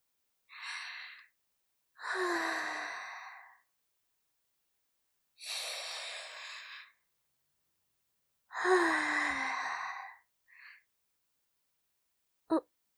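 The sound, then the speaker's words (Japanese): Deep, slow breathing: four long, airy breaths with a voiced, sigh-like edge, spaced by pauses. A short soft puff and a sharp click follow at the end. “こんな時は、確か、あれです。深呼吸。深呼吸なのですよ。”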